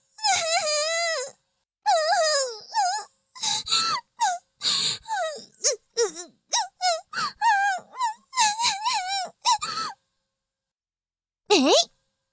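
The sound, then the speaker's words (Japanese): A voice performing fake crying in a series of exaggerated, high wavering wails and short sobbing bursts, loud and uneven over about ten seconds, then a pause and one final wail. “嘘泣きはずるい？”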